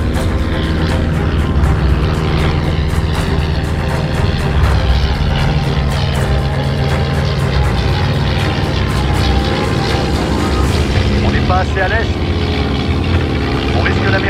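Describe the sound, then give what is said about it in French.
Single-engine propeller torpedo bombers, five flying together, drone steadily in flight. The engine roar is loud and continuous, blended with other dense sound throughout. “Même si les 5 monomoteurs peuvent parcourir aisément une distance de 1780 km avec une torpille et 3750 km sans arme de défense”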